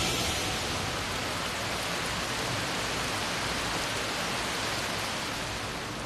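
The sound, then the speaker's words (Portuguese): Heavy rain pours down in a dense, steady hiss of drops that stays loud and even throughout, with no pauses or other sounds. “Está chovendo bastante. Está chovendo bastante”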